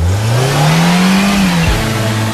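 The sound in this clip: A car engine revs loudly and alone, its pitch climbing steadily before dropping abruptly and settling into a lower, steady drone.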